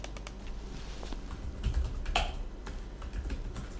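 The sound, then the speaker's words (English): Typing on a computer keyboard: a quiet, steady patter of many rapid keystrokes over faint background hiss. “Let me type it in and see if that helps.”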